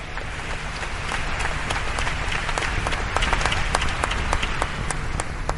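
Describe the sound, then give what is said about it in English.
Audience clapping hands during a church sermon: dense, steady applause from many hands that holds an even loudness for the whole stretch, with no talk over it. “I think it's a good place to clap your hands, somebody.”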